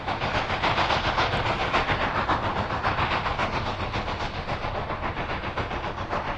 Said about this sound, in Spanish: vamos a coger nuestra locomotora. La locomotora del rockabilly. Y nos vamos a Chicago.